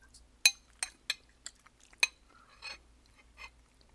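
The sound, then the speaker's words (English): A spoon clinks against a dish while someone eats another scoop of food: several sharp, bright taps in the first half, then a few softer scrapes and clinks. “I'm going to eat another scoop”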